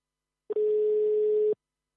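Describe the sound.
A single steady telephone tone on a line being called back, lasting about one second at a constant pitch, with a brief click just before it, alone against silence.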